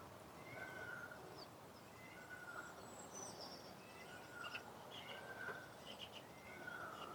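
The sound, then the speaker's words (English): Wild birds and ducks call in the early morning after a storm, with scattered chirps and short calls rising over a steady, continuous traffic hum that fills the background. “have a listen to the wild birds and the ducks and the hum of the traffic”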